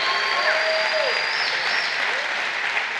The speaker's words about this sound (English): Come on, can we just put our hands together and welcome all those who are watching with us online?